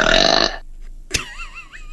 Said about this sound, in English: And then she turned around and kind of looked at me and did this.